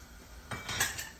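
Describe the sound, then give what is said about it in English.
A grater and a knife handled in a kitchen while preparing cucumber raita. Faint, soft metallic clinks and knocks come in the second half over a quiet background. “Now, my grater and my knife”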